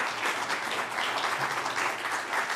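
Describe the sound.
Applause from an audience welcoming two speakers onto a stage at a science talk, steady and dense clapping at a moderate level that carries on evenly throughout.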